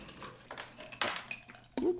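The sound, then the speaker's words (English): Ice cubes dropped into a cocktail shaker, giving a few sharp, bright clinks and clatters separated by short pauses. “You want to go ahead and put some ice in your shaker.”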